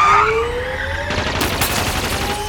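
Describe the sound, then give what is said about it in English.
Gunfire erupts as a burst of sharp, crackling shots over a steady whining drone, following a stretch of quieter rumble, with no voices heard. “Damn it, I said no shooting!”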